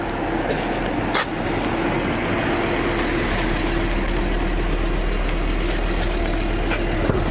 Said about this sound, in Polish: Oho, oho, czyżby to crafter jechał?